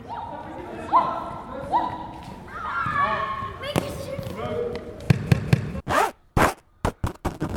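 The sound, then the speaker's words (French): A ball strikes a wire fence at a stadium where children play frisbee, giving several sharp, rattling bangs in quick succession near the end, after a stretch of children's voices and light scuffing sounds. “Des doigts qui grattent les tapis du gym. Un ballon qui tape sur un grillage.”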